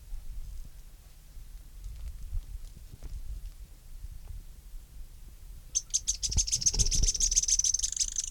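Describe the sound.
Sharp, high notes of a Synallaxis stictothorax spinetail bird come as a rapid, evenly spaced series in the second half, after a quiet, low background.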